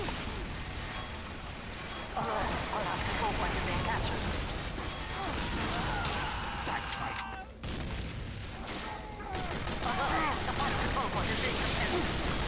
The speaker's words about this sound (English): Oh boy, yep, I got sniped. Or wait, no, I got grenade launchered.